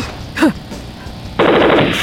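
Machine-gun fire in a battle sends bullets cracking past, a rapid, loud, dense burst of shots. It begins partway through after quieter background noise and continues unbroken to the end.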